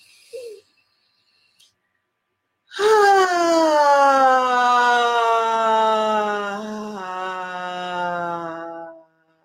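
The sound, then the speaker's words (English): A deep breath released audibly through the mouth in a breathing exercise: a long, voiced, sigh-like exhale that holds a steady tone for several seconds before fading, with a brief soft breath sound before it. “In through the nose and release it through the mouth with sound.”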